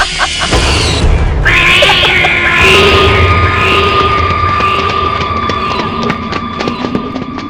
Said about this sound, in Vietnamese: Tần Cẩm định đi vào thì cô nghe thấy một tiếng mèo kêu ré lên.